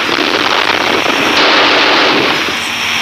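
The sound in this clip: Gunfire as a suspect is shot down during an armed police operation: a loud, dense, continuous crackle of rapid shots that runs steadily for about three seconds with no voices.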